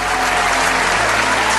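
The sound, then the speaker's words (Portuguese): Dense, steady applause from a crowd, an even, continuous wash of many hands clapping at constant loudness with no breaks. “Lucas, você edita aqui, por favor, uma salva de palmas, assim?”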